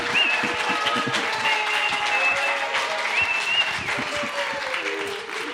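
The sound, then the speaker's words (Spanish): Audience applause at a live literature talk event: sustained, dense clapping from a crowd, steady and fairly loud throughout, with a few whistles and cheers rising above it. “con poco público, por favor, unos cuantos aplausos. ¿Les gusta así o les gusta con mucho público? A ver, ahora sí, ahora sí échenle ganas, mucho público.”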